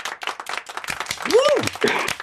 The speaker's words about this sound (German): gibt's erstmal einen Applaus.